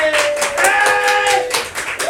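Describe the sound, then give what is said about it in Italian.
An audience claps for a contestant at a lively Italian applause-meter contest. The clapping is brisk and sustained, with voices calling out over it. “Fatemi un applauso per Anna da fuori. Ok. Grazie. Un applauso per Mati.”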